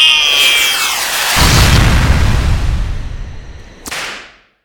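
Heat-seeking missiles firing: a whistling whoosh gives way to a loud, sustained rumbling blast, then a sharp second burst near the end that quickly fades.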